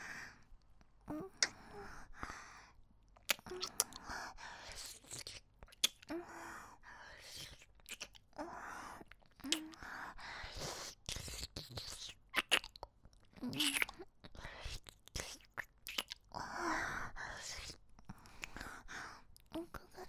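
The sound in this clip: Chewing and eating food, heard as many sharp, crisp mouth clicks and soft crunches in an irregular pattern, fairly faint, mixed with breathy whispered vocal sounds.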